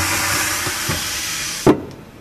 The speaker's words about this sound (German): Verschlossen, da sind die Kartoffeln jetzt quasi drin in der großen Apparatur, die ein bisschen aussieht wie eine Waschmaschine. Richtig, das sind aber Hochdruckdampfkessel, sogenannte Steamer.